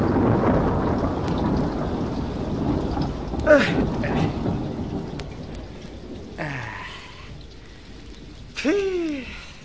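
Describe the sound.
Rain falls with thunder over a grassy outdoor spot, a steady hiss of rainfall beneath low, rolling rumbles that swell and fade.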